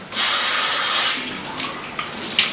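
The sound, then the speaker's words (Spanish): Water splashing as the face is washed with handfuls of water during ablution: a steady, rushing splash that eases slightly, then a few small separate splashes near the end. “que puede pasar tres puñados de agua y después hacerlo de esta forma, de arriba hacia abajo.”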